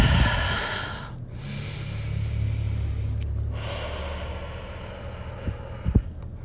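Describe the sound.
Slow, deep breaths in a guided relaxation exercise, heard as long airy rushes of breath with brief pauses between them.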